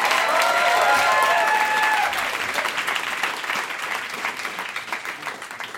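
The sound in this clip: Loud, dense audience applause welcoming a performer to the stage. It is strongest at the start and gradually eases while the clapping continues throughout.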